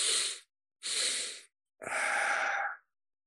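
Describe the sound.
Deep breaths demonstrated in a breathing exercise: three breath sounds, two short airy ones separated by silence, then a longer, fuller exhale, with no talking.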